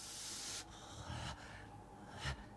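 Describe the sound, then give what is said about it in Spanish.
A weary man sitting still in a yoga pose takes a deep breath: a faint, airy hiss that fades after about half a second, followed by softer rustling breath noise. “El hombre increíble abre los ojos y respira profundo.”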